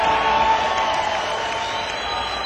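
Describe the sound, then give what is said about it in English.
Audience applause fills a club in a dense, steady wash of clapping that holds at an even, fairly loud level for the whole stretch, with a faint steady tone running beneath it. “And all of the staff and management deserve a nice round of applause to put the show on tonight.”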